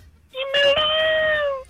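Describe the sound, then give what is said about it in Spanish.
A single drawn-out cat meow, loud and clear, holding a steady pitch for more than a second before tapering off, with no other sounds around it. “¡El gato!”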